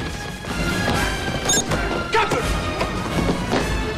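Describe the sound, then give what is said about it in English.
Punches land and bodies slam together as a ship's crew rushes two men in a brawl aboard a vessel: a few heavy crashes and thuds stand out over a busy, constant backdrop. “punches his attackers and slams one into another”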